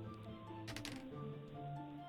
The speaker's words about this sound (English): Roll the dice, please, Game Master.